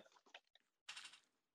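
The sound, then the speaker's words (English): Packaging torn open on patriotic sugar cookies from an MRE ration: a few short, faint crackles, then a longer rustling tear, all very quiet. “I gotta open them up just to see what they look like.”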